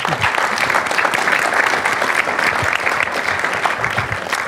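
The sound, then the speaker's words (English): An audience applauds to welcome a speaker at a public talk on direct democracy: loud, continuous, dense clapping that stays even throughout. “Please give a warm welcome to Ms.”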